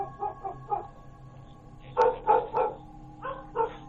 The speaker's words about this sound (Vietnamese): Chợt có tiếng nhà hàng xóm, chó nó sủa lên inh ỏi, làm cho bác gái mới choàng tỉnh ngồi dậy.